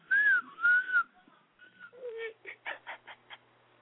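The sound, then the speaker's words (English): A person whistles a few gliding notes that rise and fall in pitch, followed by a short run of choppy, broken sounds. “A whistle?”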